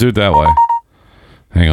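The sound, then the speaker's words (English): A phone's AirDrop notification chimes as a brief, steady tone, overlapping ongoing conversation and fading out before a short lull, after which talking resumes. “Is that what that noise was? Yeah. Is that coming in? That's the AirDrop.”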